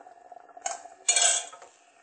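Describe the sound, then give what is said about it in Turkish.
Spoon scraping and clanking against a pot while thick halva is stirred, with a few rough scraping strokes, the longest and loudest in the middle, over a faint steady background. “Şimdi biraz karıştırması zor oluyor ama iyice bunu lütfen karıştırın. Gördüğünüz gibi helvamız karıştı.”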